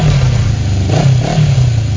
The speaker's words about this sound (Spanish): Ven, elige tu moto y llévatela esa misma noche.